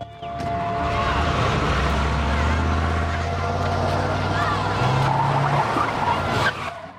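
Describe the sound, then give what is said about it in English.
A 4x4 vehicle drives off with a loud, steady engine drone. Its note steps up partway through, then the sound drops away at the very end. “Jim runs back to his 4x4, gets in, and drives off.”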